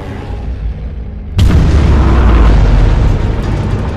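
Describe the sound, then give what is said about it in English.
A bomb strikes a ship: a low, quiet rumble is broken by one sudden loud blast, followed by a heavy, sustained roar that lasts to the end. “Another bomb hit shudders through the ship.”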